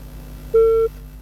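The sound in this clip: A telephone tone after a dropped call: one clear, steady mid-pitched beep lasting about a third of a second, then the start of another beep at the very end, over a low background hum.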